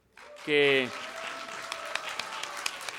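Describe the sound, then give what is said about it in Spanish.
Audience applause for members of a musical group being introduced on stage: a brief loud vocal burst, then steady, fairly soft clapping that carries on to the end. “Voy a presentar a cada uno de nuestros compañeros y compañeras para que nos sigan apoyando con ese aplauso.”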